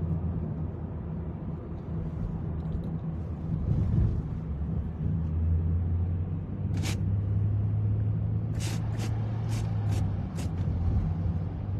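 Steady low engine rumble from a car driving at night along North Main, continuous and fairly even throughout, with a few brief high-pitched chirps near the end.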